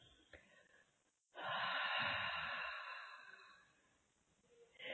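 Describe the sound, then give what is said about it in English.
A long, slow, deep breath, part of a breathing exercise, swells into a loud, airy rush lasting about two seconds, then fades to quiet before another breath begins at the end. “take some long, slow, deep breaths. When you get to the full inhale, hold it for a few seconds and then let it go.”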